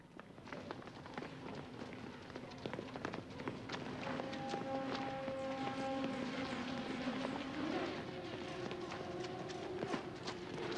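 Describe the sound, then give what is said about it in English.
Running footsteps of three escapees hurrying down a slope, rapid and irregular thuds in a steady stream that grows slightly louder partway through, with sustained tones beneath. “The three escapees run down a slope in the shadows.”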